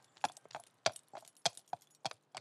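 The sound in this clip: Horses' hooves clop as four riders ride away on horseback, a steady series of evenly spaced, sharp knocks of moderate loudness heard alone without voices.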